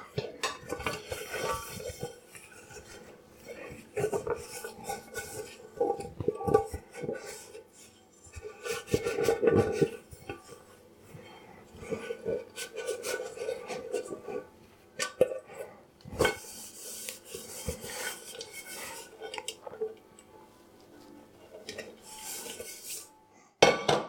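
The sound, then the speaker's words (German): Dishes, a pot and cutlery clink and knock while a pot is dried by hand. The clatter comes in many irregular bursts of metallic and ceramic clinks, with quieter rubbing between them. “Und den Topf trockne ich auch noch ab.”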